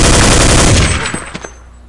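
Rapid gunfire in a tactical shooter video game: a dense, loud automatic burst for about a second, then a few separate sharper shots as the noise fades.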